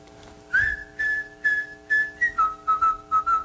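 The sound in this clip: A person whistles a short tune of many separate notes, opening with a long held note followed by shorter, clipped ones, with the later notes lower in pitch than the first.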